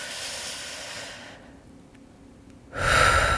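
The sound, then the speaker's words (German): Deep breath drawn into the belly during a guided breathing exercise. An airy, hissing breath noise softens and nearly fades midway, then returns louder and fuller near the end. “versuch doch einfach mal ganz tief einzuatmen, schön in den Bauch”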